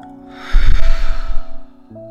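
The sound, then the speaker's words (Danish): A single long, deep breath drawn during a guided relaxation exercise: a soft, breathy rush lasting over a second, rising out of a steady, quiet tonal background and then fading away. “Sæt dig ned, have begge fødder mod gulvet, mod jorden. Træk vejret dybt.”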